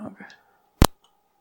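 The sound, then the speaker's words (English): A single sharp, loud click as a button is pressed on recording equipment, brief and crisp, coming just after a few moments of talk. “Give me one second. I'm going to click this button here.”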